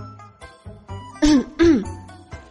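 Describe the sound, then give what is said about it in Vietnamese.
A dry cough from a man: two short, sharp, throat-clearing bursts in quick succession, loud against faint, scattered background sounds. “Bạch Ngọc Đường rút tay về, ho khan một tiếng.”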